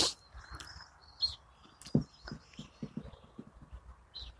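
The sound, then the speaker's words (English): Bird chicks in a nest box under a portal give a few short, faint high chirps. The chirps are scattered among soft, irregular low knocks and thumps, with no voices. “Think some of what you're hearing is some chicks up in this nest box under the portal.”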